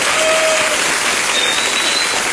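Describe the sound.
Audience applause at a Spanish-language stand-up comedy show: a loud, continuous wash of clapping that stays steady from start to finish, with no talk over it.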